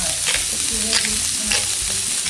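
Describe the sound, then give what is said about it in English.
Onions frying in butter in a pan give a steady, bright sizzle and crackle, with faint stirring scrapes pulsing underneath and no talk. “You know what? Onions are starting to heat up now. We got butter.”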